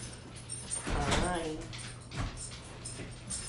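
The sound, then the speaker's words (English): A dog whimpers and yips in the background while a mother's voice and other talk carry on, the dog's high whining cries standing out briefly. “If you guys hear that in the background, it's my mother and my dog.”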